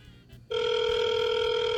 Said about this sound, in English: Can I say right here that any phone gag, one ring is enough.